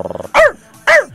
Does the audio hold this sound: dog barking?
yes